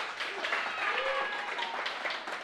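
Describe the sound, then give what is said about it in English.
Applause from a church audience for the children after their part in the service: a dense, continuous clatter of many hands, fairly loud and even throughout, with a few faint tonal voice-like sounds mixed in. “Give the kids a round of applause.”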